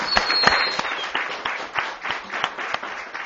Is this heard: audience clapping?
yes